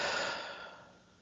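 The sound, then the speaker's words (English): A soft, deep breath taken during a guided mindfulness practice. The faint airy exhale trails away over about a second. “So take a deep breath”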